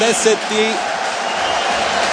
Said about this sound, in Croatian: Pljesak domaće publike, više od 7000 gledatelja, kao što smo rekli, na Opus Areni.